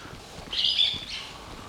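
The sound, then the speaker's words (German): A bird calls with a short, high, warbling chirp lasting about half a second, followed by a fainter trailing note, set against a quiet, low background noise. “Hat hier einer einen Vogel oder so?”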